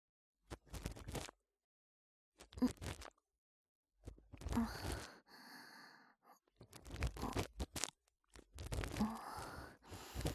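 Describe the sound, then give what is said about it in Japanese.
Faint crackling scrapes of an ear pick scraping out earwax near the ear's entrance, arriving in several short bursts separated by silence. “まずは、浅いところに見えている耳垢から、かき出してまいります。”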